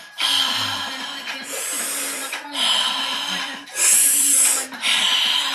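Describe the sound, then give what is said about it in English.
Loud breaths through an open mouth in a breathwork session. Long, airy inhales and exhales alternate in a slow, steady rhythm, about five breaths in all. “Keep releasing the stress and start to breathe through an open mouth.”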